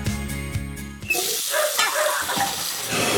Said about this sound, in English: Ugh, no, not the sink. Not now. Plumbing problems never seem to happen at a convenient time.